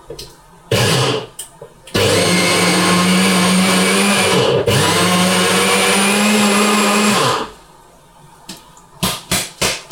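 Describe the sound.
A blender grinds nuts into powder with a loud, high whirring roar: a short burst, a brief pause, then a long steady grind of about five seconds, followed by several quick pulsed bursts at the end.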